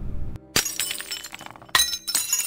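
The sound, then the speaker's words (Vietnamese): Glass breaking in a kitchen: a few sharp, bright crashes with scattered tinkling shards, each burst loud and sudden against a quiet background, with no voices. “Có tiếng đổ vỡ dưới bếp.”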